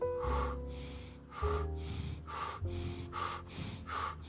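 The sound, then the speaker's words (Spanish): Deep rhythmic breathing for a breathing exercise, drawing air in through the mouth and out through the nose. About five breathy bursts repeat at a steady pace over a sustained tonal background, with no talking. “Igual, inhalas por la boca y exhalas por la nariz.”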